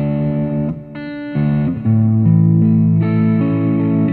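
A guitar amp tone preset with a distortion effect plays a few sustained, harmonically rich notes and chords that change several times. The tone stays loud and steady throughout, with no talking.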